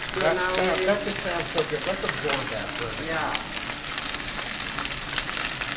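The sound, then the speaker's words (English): Steak searing in a hot pan gives a loud, steady, crackling sizzle that fills the whole clip, with voices briefly heard over it. “That just sounds so good. Let's absorb that first. Yeah. Searing a steak is one of, I think, the easiest ways to make a steak.”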